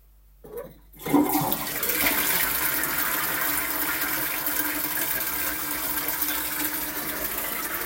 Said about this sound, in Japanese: 流してお部屋に戻りますね。